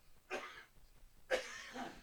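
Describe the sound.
Two separate coughs from someone recovering from an illness with a scratchy throat. Each is a short, harsh, breathy burst, about a second apart, with no talk between them.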